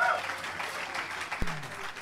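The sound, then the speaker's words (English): Audience applause after a live rumba number by a four-piece Latin folk band, a dense, steady patter of clapping that holds for about two seconds at a fairly even level. “let's have a nice round of applause.”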